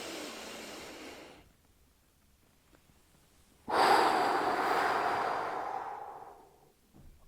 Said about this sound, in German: atme tief ein, halte kurz 4-5 Sekunden den Atem, atme richtig in den Brustkorb und dann einfach ausatmen.